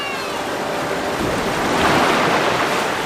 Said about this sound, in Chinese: 那是什么？ 潜水艇啊，我的朋友。